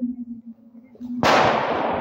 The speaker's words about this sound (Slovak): Hádzať granát, ale taký ten špeciálny, ktorý nemá nikoho ani zraniť alebo zabiť. Pali!